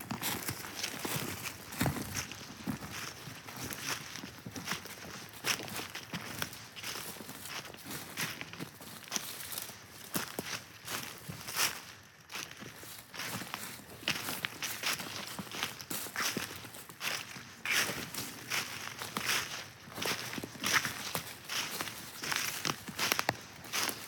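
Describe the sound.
Footsteps crunch steadily uphill along an outdoor trail: many even, brisk walking steps over rough ground, continuous throughout, with no talking.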